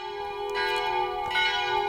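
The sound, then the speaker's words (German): Church bells ring on a sunny afternoon at a convent in Heiligenbronn. Sustained metallic tones hum steadily, and a couple of fresh strikes sound over them at moderate loudness, with no voices. “Die Kirchenglocken läuten”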